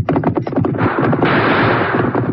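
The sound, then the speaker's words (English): Gunfire erupts during an outlaw stagecoach holdup in the Old West: many rapid, loud shots crack in an uneven volley, then blur into a dense, continuous rumble of shooting. “Yes, draw your guns, Tonto, and begin shooting.”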